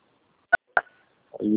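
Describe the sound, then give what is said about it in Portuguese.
Two short telephone keypad beeps sound as a phone's number pad is pressed by accident with an ear. A voice begins right after the second tone. “E meu ouvido tá discando o número aqui, peraí.”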